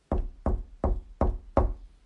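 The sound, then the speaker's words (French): Someone knocks on a door with five sharp raps at an even, steady rhythm. Each knock is a solid, low thud with a short ring, and the knocks are separated by brief silences. “elle frappa à la porte.”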